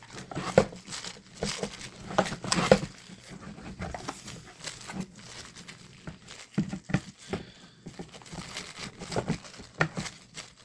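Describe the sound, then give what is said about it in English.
Taped packaging on a Pixel phone box is pulled and torn open, with quiet, scattered crinkling, rustling and scraping of cardboard and tape in uneven bursts. “And we're just going to kind of rip this open. It's taped, though, so you're still going to have to... Cut it or something. Pull it off the side.”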